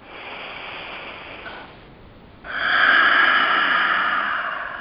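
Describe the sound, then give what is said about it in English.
A deep breathing exercise, with a long soft breath through the nose and out through the mouth. It sounds as two sustained, airy rushes with no talk, the second louder and fuller than the first. “we're going to take 2 more of those, a big inhale and a big exhale. And 1 more.”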